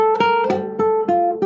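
A single-note guitar melody played on the strings: about six plucked notes at a steady, even pace, each ringing clearly with bright overtones.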